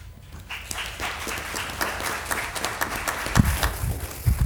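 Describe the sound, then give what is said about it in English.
An audience applauds to welcome a speaker, Reverend Peter Bagley, with dense, continuous clapping that stays fairly even throughout and swells slightly near the end. “And if you will, join me, give me a hand in welcoming Reverend Peter Bagley.”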